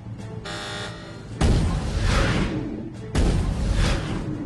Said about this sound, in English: Tubes 1 and 2 fired electrically.